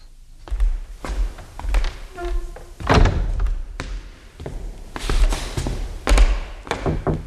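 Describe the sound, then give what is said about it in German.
A front door being shut, heard as a series of knocks and thuds with one heavier slam in the middle and scattered lighter thumps around it. “Hast du die Haustür wieder geschlossen?”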